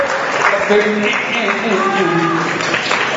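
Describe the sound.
Applause from an audience honouring a colleague's work, a steady wash of clapping that runs throughout with voices talking over it.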